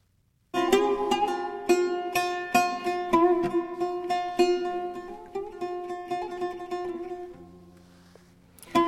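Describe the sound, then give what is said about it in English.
An oud, the ancient pear-shaped stringed instrument from Iraq, plays a lively melody of plucked notes with a bright, resonant twang that rings on before fading. “That's the sound of an oud, a 5,000-year-old instrument from Iraq.”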